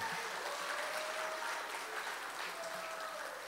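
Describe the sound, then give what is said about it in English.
A church audience claps its hands during worship, a faint, steady wash of many overlapping claps without clear pauses. “Give the Lord a hand clap,”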